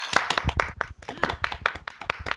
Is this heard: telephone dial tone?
no

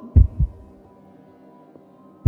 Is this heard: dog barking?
no

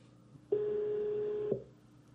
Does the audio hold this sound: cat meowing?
no

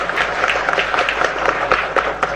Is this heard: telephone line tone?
no

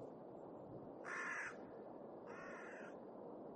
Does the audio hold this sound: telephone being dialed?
no

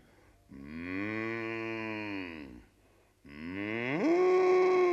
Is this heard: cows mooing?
yes

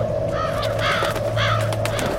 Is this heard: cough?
no

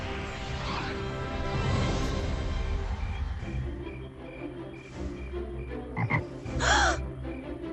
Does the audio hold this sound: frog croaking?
yes

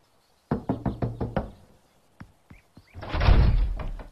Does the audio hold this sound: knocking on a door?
yes

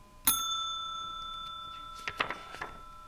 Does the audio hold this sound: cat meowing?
no

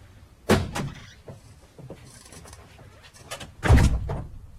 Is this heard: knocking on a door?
yes

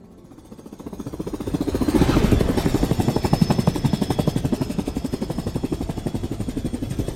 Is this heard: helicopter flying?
yes

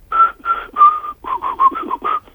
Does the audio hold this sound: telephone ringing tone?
no

